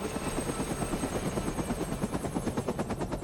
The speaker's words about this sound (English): starts the helicopter's engines. He pulls back on the joystick and the chopper rises into the air.